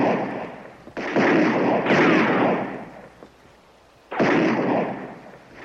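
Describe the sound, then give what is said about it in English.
Recruits fire guns at man-silhouette targets on a firing range. Three loud, booming shots sound in turn, each with a long, rumbling decay, and quieter crackle fills the gaps. “at the firing range. Recruits shoot at targets, bearing a silhouette of a man.”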